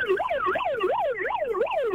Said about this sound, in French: La sirène. Bonjour. Fais la sirène. Ah voilà.